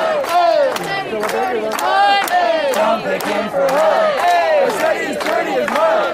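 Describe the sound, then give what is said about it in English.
Protesters chanting and shouting outside the Los Angeles mayor's residence, a dense crowd of raised voices in loud, continuous, rhythmic bursts that hold steady across the whole stretch without pause. “That's the sound of protesters outside Getty House, the LA mayor's residence.”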